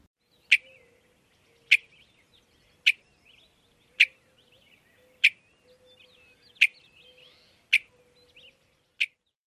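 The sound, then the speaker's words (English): Western Meadowlark bell-like chup calls: eight short, sharp, rounded notes repeated at a steady pace about a second apart, clear and alone over a faint low hum. “The most common call of the Western Meadowlark is a bell-like chop. To me, this call brings to mind the Blackbird check call, but is a little more rounded and bell-like.”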